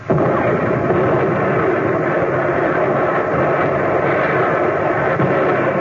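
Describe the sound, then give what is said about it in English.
Naval guns firing at boats during a wartime sea battle, heard as a loud, dense, continuous roar throughout with no separate shots standing out. “Commence firing. Commence firing.”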